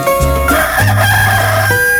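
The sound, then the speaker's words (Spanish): A rooster crows in one long, drawn-out call over a loud, steady musical background. “Y como siempre, cuando canta el gallo”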